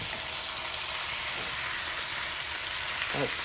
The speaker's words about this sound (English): Now, I'm actually going to add a splash of rice vinegar just to see if that helps. Nice little bit of rice vinegar.